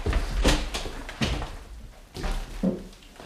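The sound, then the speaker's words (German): A door is opened in a 1962 German radio drama: a few dull wooden thumps and rattles, fairly faint, with no talk. “Na los, mach die Tür auf.”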